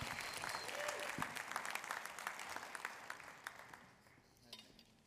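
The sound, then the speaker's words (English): Audience applause welcomes a pastor to the stage at a morning church service: dense, steady clapping that holds fairly loud, then thins and softens toward the end. “So why don't you give him a big hand and welcome Pastor Nick as he comes to share this morning.”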